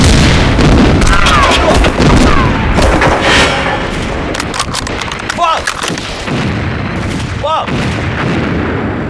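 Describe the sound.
Artillery guns firing in a battle: dense, continuous heavy booms and blasts that keep the din loud throughout, with shouted voices breaking through near the end.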